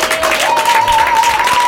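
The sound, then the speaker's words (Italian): Brief applause from a group at an outdoor camp activity: a dense, steady burst of clapping with a faint sustained whistle-like tone running through it. “E allora un applauso ai Dinamici di oggi!”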